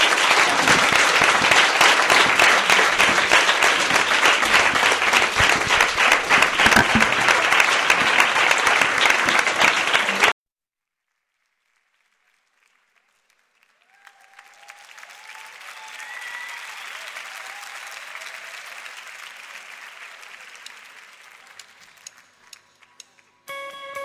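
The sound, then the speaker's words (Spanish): Dense, loud applause from an audience after a live radio interview and performance with a band, sustained for about ten seconds. It then cuts off to silence, and quieter tonal sounds follow. “Un fortísimo aplauso”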